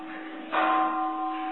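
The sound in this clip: A bell is struck once and rings with a clear sustained tone that lingers and slowly fades over a faint steady hum.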